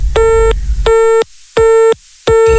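Telephone busy signal on a caller's line: a loud, buzzy, steady tone switching on and off in regular bursts, about four in view, with no voices.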